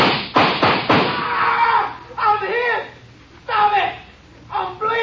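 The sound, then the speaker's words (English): Gunshots in a radio drama, fired at a rock ledge so the bullets ricochet: a quick burst of sharp, loud cracks at the start, followed by people talking and shouting. “Bullets will ricochet back from that ledge behind him. See that dent in the ledge? Yeah. Draw your gun and we'll empty it on him. Hit right below the dent. Aye. All right. Let's hope for a billiard shot. Start firing.”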